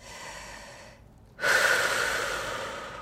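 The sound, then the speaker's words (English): A deep breath in and out is drawn during a guided meditation on setting goals. A soft, quiet stretch of breathing gives way to a louder, sustained airy rush that slowly fades. “take a second and just really breathe in and out.”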